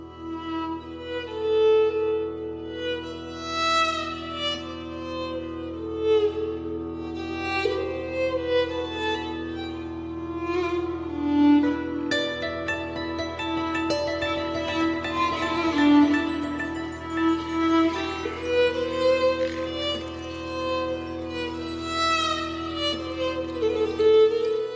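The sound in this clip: Medieval-style instrumental music from the video game Pentiment: a sustained low drone under a moving melodic line of rich, harmonic notes that plays continuously throughout.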